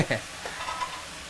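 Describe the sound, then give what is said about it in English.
Thick, chewy blanched egg noodles are stir-fried with oyster sauce and fish sauce. A soft sizzle runs under a few quick scrapes and clatters of a utensil in the pan. “Stirring it in with the ingredients and that oyster sauce and fish sauce.”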